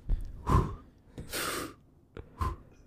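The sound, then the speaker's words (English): Deep breaths taken one after another, a few airy inhales and exhales with a longer hissing breath in the middle, moderately loud with small clicks between. “Just take three deep breaths.”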